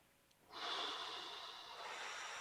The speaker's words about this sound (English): Take a breath.